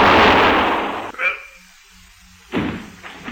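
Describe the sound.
Gunshot sound effect in a radio drama: a loud, booming burst that trails off into quiet, then another sharp bang.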